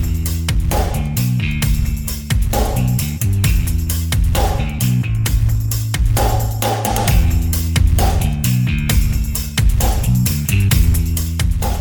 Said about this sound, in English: Here's the intro music.